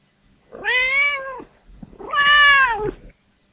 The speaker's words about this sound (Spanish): escuchar algunos gatos. Este es un gato que quiere jugar. Y aquí tenemos a otro.